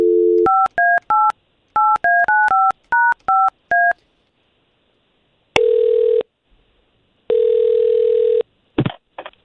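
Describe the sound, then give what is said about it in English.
A telephone is dialed to call someone: a quick run of about ten beeping keypad tones, then two long, even ringing tones separated by a pause. A couple of short clipped bursts close the sequence. “we've got Alice's contact thanks to you, and we're going to call her right now.”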